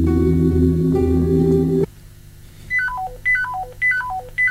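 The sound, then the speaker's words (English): Espionage-style codec tuning-in sound effect: a steady low electronic drone cuts off abruptly, followed by a few quick cascades of bright electronic beeps, each run stepping downward in pitch. “We've received the intelligence that we know what the sound is of their codec tuning in. Right. Which will sound like this.”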